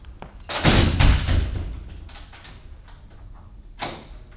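A door that will not lock is tried, giving a dense burst of thuds and rattles followed, after a quieter stretch, by one more sharp knock near the end.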